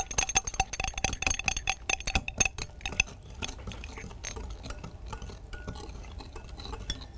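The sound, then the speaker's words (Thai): A thick cosmetic mixture containing viscous polyquaternium-7 is stirred until smooth. A utensil clinks and scrapes against the container, busy and irregular for about three seconds, then softer and sparser. “แล้วเราก็ค้นนะคะจนส่วนผสมเป็นเนื้อเดียวกันจนส่วนผสมเข้ากัน”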